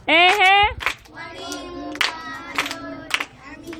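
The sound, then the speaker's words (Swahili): Scattered clapping for a teacher during a children's session in church, a few separate claps amid children's voices, opening with one loud calling voice. “Makofi mwalimu.”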